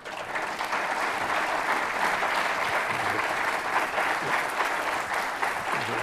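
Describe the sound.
An audience applauds to welcome a speaker, a professor, with sustained, even clapping that holds at a steady level for the whole stretch.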